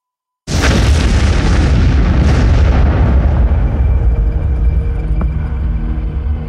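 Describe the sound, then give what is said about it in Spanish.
A mansion explodes in a sudden loud blast that bursts in after a moment of silence. A heavy, roaring rumble follows and slowly fades while staying strong to the end. “Cuando el corazón de Bruce se detuvo, la mansión Wayne explotó.”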